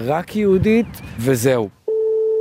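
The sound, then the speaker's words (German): An unanswered telephone call to a resident of a West Bank settlement: a person speaks first, then a steady, unbroken ringback tone sounds until the end. “Ein Anruf bei einem Bewohner von Jizar bleibt zunächst unbeantwortet.”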